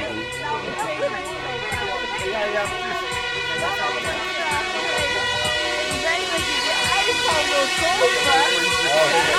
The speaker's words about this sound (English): Ah, we got sirens.